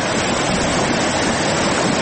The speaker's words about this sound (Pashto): د دوی په خبره چې اوس هم په خوړ کې پریمان اوبه بهېږي